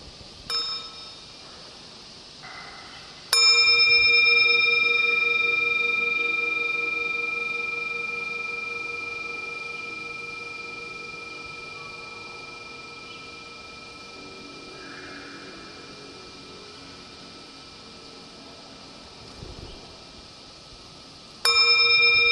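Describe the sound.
A bell struck twice during a mindfulness meditation session: the first strike rings out loud and sustained with a slowly fading tone, and a second strike sounds near the end. No voices.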